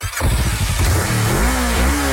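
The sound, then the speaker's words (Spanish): A Boxer 150 motorcycle with a new, stronger engine revs loud and continuously, its pitch climbing and then holding steady as the throttle opens. “¿Escuchas eso? Es la nueva Boxer 150. No le teme al polvo ni a la carga pesada. Con su nuevo motor más fuerte”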